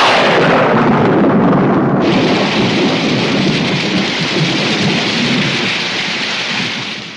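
Thunderstorm sound effect: loud, continuous hiss of heavy rain over deep, rolling thunder rumbles, sustained throughout and easing slightly at the very end, with no voices.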